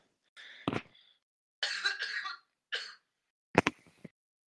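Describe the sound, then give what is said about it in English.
A man coughs in several separate rough, harsh bursts with short silent gaps between them, some with a throat-clearing quality. “sorry, that's my buddy, he's coughing.”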